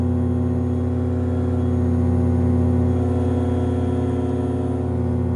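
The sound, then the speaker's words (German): Steady engine drone of an ASH 26 E motor glider climbing out over an Alpine ridge edge, a loud continuous hum with strong low harmonics that holds an even pitch throughout, with no talk. “Jetzt gehen wir links weg. Steigen haben wir 3,5 Meter, das ist gut.”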